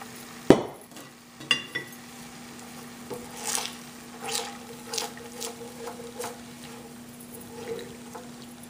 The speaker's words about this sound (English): I reserved that marinade that we had added, and I'm just going to add that to the pan here.